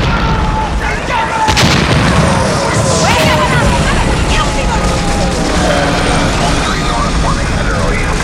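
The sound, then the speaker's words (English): An explosion blowing up two full city blocks bursts with a sharp crack early on, followed by a loud, sustained roaring rumble of chaos, with a voice talking over the din. “Jamal Rocker, aka Mac Maul, has apparently exploded 2 full blocks. It's mayhem down here.”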